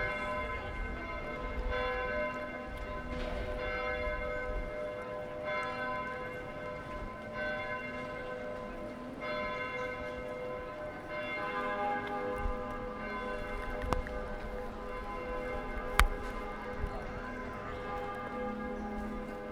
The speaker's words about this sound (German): Ja, Glocken. Das Münster ruft uns. Das Münster ruft uns einfach, genau.